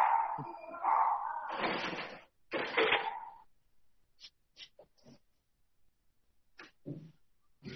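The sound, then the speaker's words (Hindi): Gate being shut at home while a pet dog runs loose: loud metallic clanking and scraping bursts in the first three seconds, followed by scattered short, fainter knocks and clicks. “एक minute मैं gate बंद करती हूँ, doggy भाग रहा है।”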